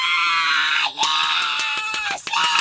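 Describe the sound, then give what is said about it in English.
A voice imitates a woman screaming in a cinema: one long, high-pitched, piercing shriek with a brief break near the middle before it carries on. “Like Coulson showed up and she screamed.”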